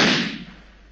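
A pistol shot fired at a wall: a single sharp, loud crack that decays quickly into a fading tail.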